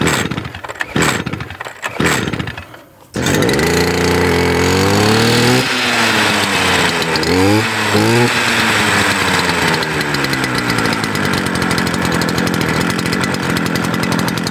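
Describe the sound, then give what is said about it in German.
A small petrol engine is primed with fuel, set on choke and pull-started. A few rough pulling bursts come first, then the engine catches and settles into a loud, steady buzzing drone whose pitch wavers up and down as it runs. “Also erstmal muss ich so ein bisschen Sprit vorpumpen, Schock anmachen und dann anziehen, hoffen, dass er anspringt und dann kann ich auch schon losgehen.”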